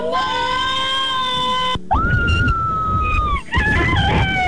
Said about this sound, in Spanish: Y este es mi grito.